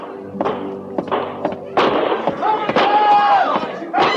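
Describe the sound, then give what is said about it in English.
Gunshots ring out near a stockade in a frontier fort setting: several sharp, thumping reports at irregular intervals. Voices and a faint tonal whine mix in among them. “Where are those shots coming from”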